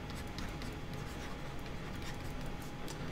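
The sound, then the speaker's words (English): Handwriting with a pen on paper as sentences are written out during a lecture, a faint, continuous soft scratching with no voices. “Okay, all right, so let's write some sentences.”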